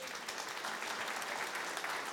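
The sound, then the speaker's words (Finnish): An audience applauds a contestant who has just been welcomed onto the stage. The clapping is quiet but dense, a continuous patter with no voices over it. “Tervetuloa voitto tänne lavalle. Ja siinähän on. Hienoa. Ja aplodit voitolle.”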